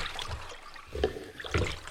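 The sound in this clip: Swimming splashes in open sea water, a few soft, irregular surges of churning water over a low watery wash.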